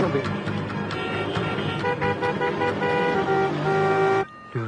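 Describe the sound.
Car horns honk in a traffic jam, with several sustained, overlapping horn tones over a continuous engine rumble. The honking cuts off abruptly near the end.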